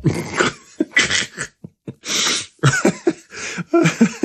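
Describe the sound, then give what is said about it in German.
Coughing from a person who has choked on something, many harsh, uneven bursts broken by short gasping breaths. “Ich habe mich verschluckt.”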